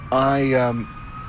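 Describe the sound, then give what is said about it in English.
An emergency vehicle siren at an intersection in Whitby, Ontario: a loud, harmonic-rich wail lasting under a second before it cuts off, leaving faint background noise. “maybe I'll let this go through because it could be hard to edit around the emergency vehicle.”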